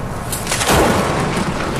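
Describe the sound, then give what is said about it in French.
Thunder from lightning strikes, heard alone with no voices: a loud, dry crack swells into a broad, noisy roar that stays strong to the end. “Là, ce que tu entends, c'est des coups de foudre.”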